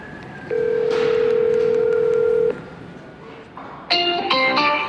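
A phone call being placed: a steady, loud dial tone holds for about two seconds, then a quick run of bright keypad dialing tones follows after a short pause. No one speaks.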